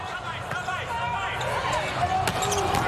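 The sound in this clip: A volleyball serve during a USA versus Japan match: a sharp ball impact stands out briefly over steady crowd noise and voices.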